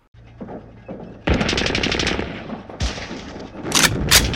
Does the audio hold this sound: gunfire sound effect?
yes